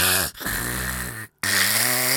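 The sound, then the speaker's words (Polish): A person imitates snoring with the nose blocked, producing a rough, buzzing rattle from the palate and throat in two loud stretches separated by a short silent break. “ja teraz demonstruję, zatykam sobie nos i chrapię.”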